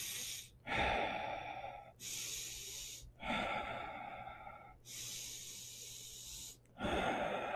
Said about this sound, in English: And just center yourself and breathe through your nose, out your mouth, kind of a deep belly breath through your nose.